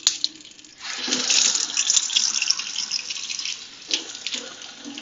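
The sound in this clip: Tap water runs into a sink while dishes are washed, a steady rushing hiss that begins after a quiet start and keeps flowing, briefly dipping once near the end.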